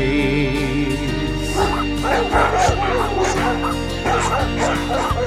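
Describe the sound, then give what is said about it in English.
Dogs barking at a dog park: many loud, overlapping yips, barks and whimpers in a steady, busy stream. “They say the dog park's noisy 'cause they bark.”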